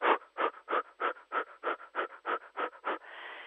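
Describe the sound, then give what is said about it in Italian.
A person pants through the mouth with short, fast, shallow breaths: ten quick, even puffs in a steady rhythm, followed by a softer sustained breath. “soffiare in modo breve, veloce, superficiale dalla bocca. Ve lo faccio sentire.”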